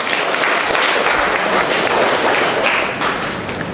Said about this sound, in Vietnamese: Rồi cho một tràng tay hoan hô người anh em này.